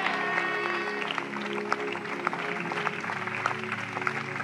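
A church audience claps during a prophetic prayer service, with faint and irregular hand claps heard over sustained musical tones.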